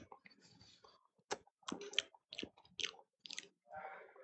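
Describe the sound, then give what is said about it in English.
A cigar is cut with a cutter, giving several sharp, dry clicking snips spaced irregularly against near silence, with a softer rustling at the end. “I'm going to cut those a little more. I'm a little tight here.”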